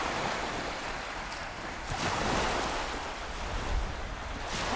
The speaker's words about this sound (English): Just a couple of gulls going over the sea, lapping at these seaweed-strewn rocks.